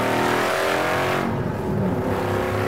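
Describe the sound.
A car engine revs hard at high RPM, around 6,000, producing a loud, sustained roar that holds steady for the whole stretch with no pause.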